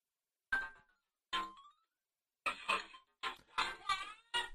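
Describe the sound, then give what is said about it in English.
A phone ringtone interrupts with a series of short, bright tonal bursts separated by brief gaps, forming a choppy electronic melody that plays on its own without talk. “Thank you, phone, for deciding to interrupt this important podcast.”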